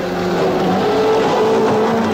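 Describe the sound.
A Rover 3500 car driving, a steady, loud engine drone with a humming tone held level throughout.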